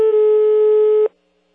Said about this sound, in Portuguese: Tá cortando aí seu celular, rapaz, a ligação caiu